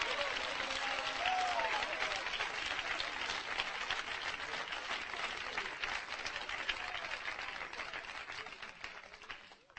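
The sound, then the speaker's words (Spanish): Applause from a church audience for the mayor of Alejandría: sustained, dense clapping with crowd noise that holds steady for several seconds and then gradually fades toward the end. “Hermano, ese aplauso es para el alcalde de Alejandría, ¿verdad?”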